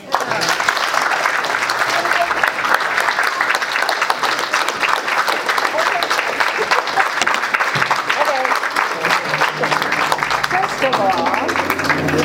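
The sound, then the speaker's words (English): An audience applauds at a gathering. The clapping is sustained, loud and even, forming a continuous dense patter that holds steady for about twelve seconds. “Let's give him another hand.”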